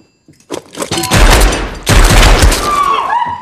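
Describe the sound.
Loud gunfire from a film shootout: dense, rapid volleys of shots and booming cracks in two sustained bursts, with a brief dip between them.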